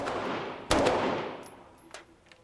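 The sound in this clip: Gunfire while firing off magazines at a shooting range: a pair of close sharp shots that ring out and fade, then a fainter later report.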